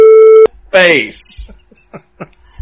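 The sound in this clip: A censor beep gives one loud, steady high tone lasting under half a second. It stops abruptly, and a voice then carries on talking.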